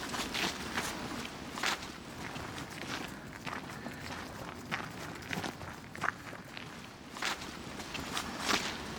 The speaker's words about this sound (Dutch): En dus is dat een wandeling die ik regelmatig wandel. Ja, ook fijn omdat je loopt zowel door de weien als door de bossen.